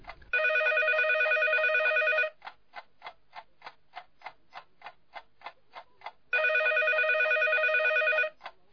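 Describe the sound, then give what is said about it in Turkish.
A telephone rings in two long, bright, trilling bursts about four seconds apart, loud and clear. Between the rings runs a steady series of short, evenly spaced ticks. No voices are heard. “Telefon, telefon çalıyor.”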